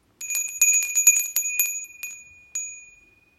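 A small meditation bell rings in a quick run of bright, high metallic strikes, then sounds once more after a short pause and fades out alone.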